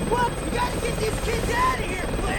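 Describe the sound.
Helicopter rotor and engine drone in a steady, dense roar with no break, while voices carry on over the noise.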